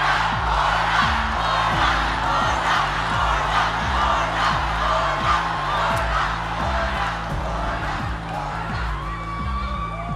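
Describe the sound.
Crowd at an election rally cheers and shouts loudly and continuously, with many voices blending into a dense, roaring wall of sound.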